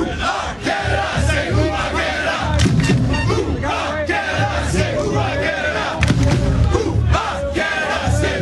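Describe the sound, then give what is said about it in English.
A football crowd at BC Place in Vancouver chants and roars before Canada faces Switzerland in a FIFA World Cup group match, the massed voices surging in waves with occasional low thuds. “Canada will face Switzerland in FIFA World Cup action in Vancouver this hour, with first place in Group B on the line. This is what it sounds like at BC Place.”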